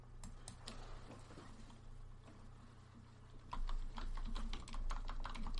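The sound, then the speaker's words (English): Typing on a computer keyboard in the dark, with quiet, irregular key clicks at first, then a faster, denser run of keystrokes over a low, steady hum. “I'm gonna do a quick search of Corey Perry. I'm trying to type in the dark here.”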